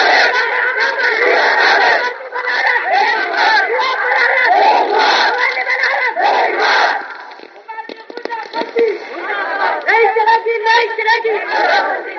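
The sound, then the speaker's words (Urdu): A large crowd at a rally chants a slogan in loud, rhythmic unison shouts, dropping to a brief lull of scattered voices before the massed chanting surges back. “بستی بستی کر گیا کر گیا یہ نعرہ بلند ہوگا”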